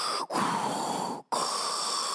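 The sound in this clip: A voice imitates heavy, rasping breathing through a face mask in the manner of a sci-fi villain. A few long hissing breaths are separated by short silent gaps.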